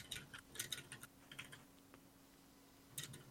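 Faint typing on a computer keyboard as someone takes notes: quick bursts of light key clicks, a short pause in the middle, then more keystrokes.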